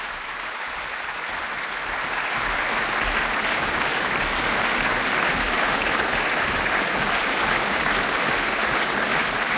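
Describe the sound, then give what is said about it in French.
Concert audience applauding after a chamber music performance by two French musicians, calling them back to the stage. Dense, steady clapping fills the whole clip and grows slightly fuller after the first two seconds, with no voices standing out. “Voilà, le public qui les rappelle, peut-être pour un deuxième moment.”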